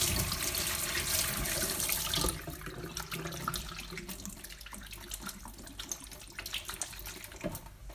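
Running tap water gushes over hands being washed at a sink, a loud steady rush for about two seconds that then drops to a quieter flow broken by small splashes and clatters.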